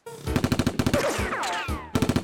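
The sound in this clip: Rapid bursts of gunfire as guns open fire: a loud, stuttering run of quick shots, a brief gap with sweeping whistling sounds, then another short, fast burst.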